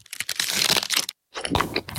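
The bubbles of an Aero mint chocolate bar crunch in two brief bursts of dense, crisp crackling separated by a short silence.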